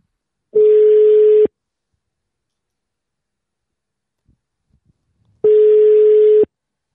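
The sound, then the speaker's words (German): Telephone ringback tone after a number is dialed and the call button pressed: two steady, mid-pitched tones about a second long each. About four seconds of near silence with a few faint clicks separates them. “ich habe jetzt hier eingetippt 01 Abyss und drücke jetzt hier mal auf Anrufen.”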